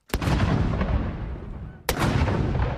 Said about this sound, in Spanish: Como en toda Gran Bretaña y a la misma hora, los militares dispararon 96 cañones de salva